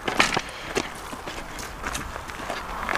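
Footsteps walking into a huge hall of a new multi-sports complex still under development, by the main basketball court: several irregular steps with sharp heel taps and scuffs, moderately loud over a steady background hiss.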